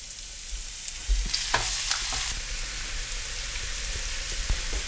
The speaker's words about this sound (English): And I'm going to pour in our ginger and garlic. So into the oil, I'm tossing in some of our chopped garlic and ginger.